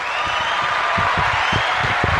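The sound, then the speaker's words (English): Applause greets guests joining a roundtable conversation: steady, dense clapping from an audience, holding at an even level before cutting off abruptly at the end. “Put your hands together and welcome yellow, our yellow, guests.”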